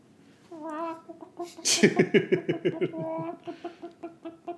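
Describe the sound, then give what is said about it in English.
Hens clucking in a chicken coop: a rapid run of choppy clucks and squawks, rising into a busy, repeated chatter before settling into softer, spaced clucks. “That's right, I've hit the jackpot. A chicken coop.”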